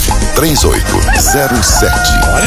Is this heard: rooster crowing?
yes